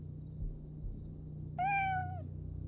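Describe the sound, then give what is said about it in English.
A cat meows once at a crime scene. The meow is a fairly high, drawn-out call that dips slightly at its close, heard over a steady low hum with no voices. “And at that moment, I hear”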